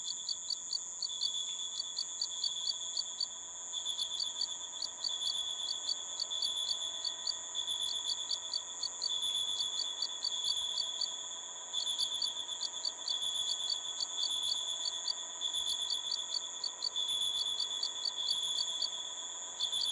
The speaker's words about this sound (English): a sound collage that uses archive-filled recordings of tropical crickets